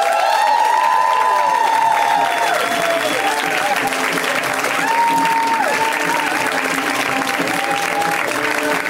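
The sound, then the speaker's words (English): Audience applause for a comedian, a dense, steady wash of clapping that stays loud from start to finish. “A round of applause for Rhea, everybody.”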